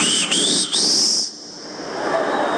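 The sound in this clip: A person whistles to call someone: a loud, sustained high whistle that steps upward in pitch across two short breaks and lasts about a second. It then cuts off, leaving a quiet hiss.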